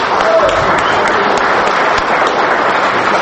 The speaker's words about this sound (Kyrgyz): Атамбаевдин билдирүүсү ушундай кол чабуулар менен коштолду.